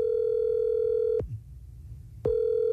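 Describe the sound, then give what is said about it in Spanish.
Telephone ringback tone while a call is being placed: a steady, moderately loud buzzing tone stops, leaves a second-long gap, then begins again in the same on-off ringing rhythm, with no voices. “Está marcando.”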